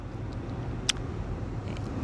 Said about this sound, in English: I'm doing another drive and talk. It is your girl, Rachel Real. You might hear the blower blowing because your girl got to get some heat.